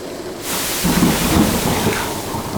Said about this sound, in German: sind aber in einen schweren Sturm geraten. Wir treiben manövrierunfähig in der See.